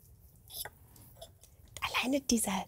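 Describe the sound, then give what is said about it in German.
Soft, wet chewing with a few light clicks as someone eats Spätzle with a fork, followed by a voice speaking near the end. “Also, und mit den Spätzchen hier oder was es ist. Guten Appetit, lassen Sie es sich schmecken, wir probieren jetzt.”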